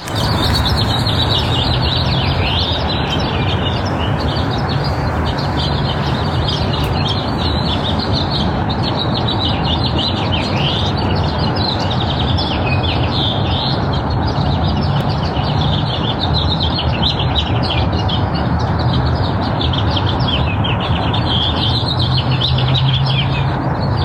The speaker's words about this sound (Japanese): じゃあまず1個目、ロサンゼルスの朝6時ぐらいかなの鳥の声です。